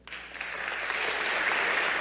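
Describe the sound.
Applause rises from an audience welcoming a guest speaker at a morning gathering. The clapping starts with a few scattered claps, quickly swells into full, steady applause and holds at that level to the end.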